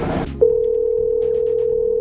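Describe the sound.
Steady telephone dial tone after dialing: a continuous, loud mid-pitched hum that starts abruptly after a brief burst of noise and holds unchanged for nearly two seconds.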